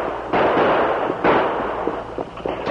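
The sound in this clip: Gunshots in an outlaw ambush on a stagecoach guard: two sharp, loud blasts, each with a dense noisy tail, followed by fainter rattling.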